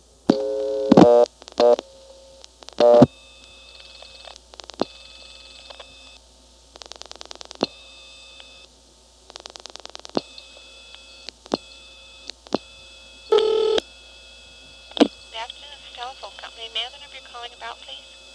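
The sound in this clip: Telephone dialing of 223-9911: short bursts of dial tones and sharp clicks separated by quiet gaps, with some longer steady tone stretches and a low hum underneath.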